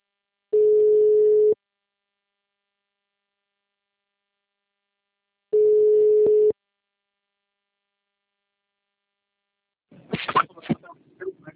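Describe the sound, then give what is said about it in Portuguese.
Ringing tone of an outgoing telephone call: two steady, low-pitched one-second beeps about five seconds apart, then a short burst of voice as the line is answered. “vou ligar aqui pro moço, falar com ele.”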